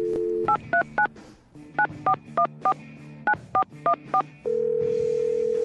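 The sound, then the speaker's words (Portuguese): Telephone keypad tones as a number is dialed: eleven crisp DTMF beeps in quick groups of three, four and four. A steady tone is heard before and after the dialing. “Vamos lá então, discando aqui.”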